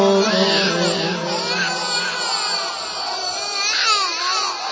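A baby cries in sustained, wavering wails that carry on at a steady, fairly loud level throughout.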